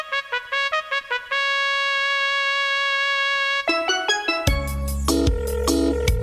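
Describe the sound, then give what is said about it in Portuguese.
A telephone ringtone plays a quick run of short electronic tones, then settles into one steady sustained tone, before music with a heavy bass line comes in over it. “Alô? Atende aí, amor. Atende aí, amor.”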